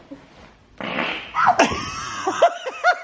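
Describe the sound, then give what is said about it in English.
A loud, sputtering fart starts just under a second in and runs for about two seconds, with squeaky, high-pitched tonal bursts mixed into it. “You can do a fart. No. But you did. Go away! Sorry, I'm really gassy today. Are you serious? All you do is fart.”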